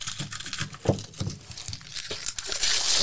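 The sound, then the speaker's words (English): Paper wrapping being pulled and torn off a tightly wrapped, taped gift: continuous, busy crinkling and crumpling with sharper ripping tears, fairly loud throughout and with no talk. “Whoever wrapped this, oh, there's tape on it. That's the problem.”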